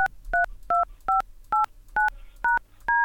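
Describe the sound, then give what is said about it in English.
A telephone number being dialed on a keypad: eight short, loud touch-tone beeps in a slightly uneven rhythm, heard alone with quiet gaps between them. “Okay, let me dial the number now.”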